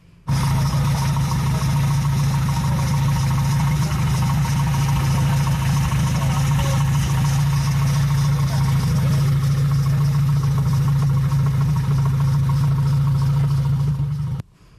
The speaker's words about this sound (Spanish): para escuchar el sonido del escape de un modelo de Renault muy popular también